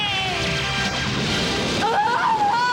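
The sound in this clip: Sailor Mars' Fire of Mars attack from the Sailor Moon cartoon roars as a loud, sustained blast with ringing, shimmering tones, and a warbling tone rises near the end.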